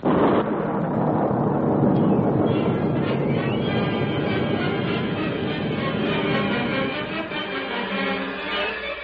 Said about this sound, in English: The blast went off, and great masses of rock and earth were torn from the side of the hill, blocking the narrow pass.